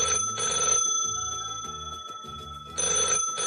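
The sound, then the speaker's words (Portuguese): A telephone ringing after a number is dialed from an office, heard as a few clear, steady ring bursts at the start and end with a patterned tone between them, and no talk. “Estava sentado no meu escritório quando lembrei de uma chamada telefônica que tinha que fazer. Encontrei o número e disquei.”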